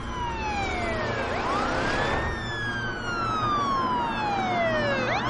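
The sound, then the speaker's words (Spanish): A police patrol car's siren wails as the car arrives, loud and alone, its pitch sweeping up and down in long, smooth glides. “Cruza la calle y se aleja. Llega un coche patrulla.”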